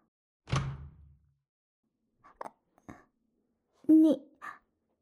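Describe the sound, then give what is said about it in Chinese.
A door is locked with one solid thunk that fades quickly, followed by a few short spoken words from people nearby. “你锁门干什么呀？”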